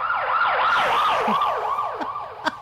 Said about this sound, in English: that's the ambulance outside my church